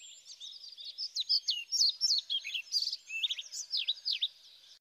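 A pied flycatcher sings a rapid, continuous run of high, varied chirps and trills, bright and clear with no other sounds behind it.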